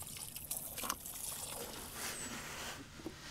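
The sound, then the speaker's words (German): Wet, sloshing liquid sounds as leftover clay is stirred with water, faint and continuous, with a few small splashy bursts and no voices. “Mit Wasser verrührt wird er wieder geschmeidig und formbar.”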